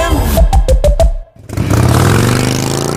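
A motorcycle engine revs in a quick series of loud blips, drops out briefly, then settles into a sustained, gravelly roar.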